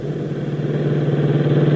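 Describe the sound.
A sedan's engine hums as the car drives away, a steady mid-pitched drone that holds an even level throughout, with no voices.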